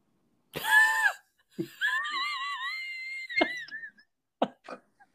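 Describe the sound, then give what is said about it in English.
Wheezing laughter from a person: high, thin whistling breaths that waver in pitch across a few bursts, with short breathy snorts and coughs toward the end. No talking. “Why do I wheeze so much? I'm not sure. It's really awkward.”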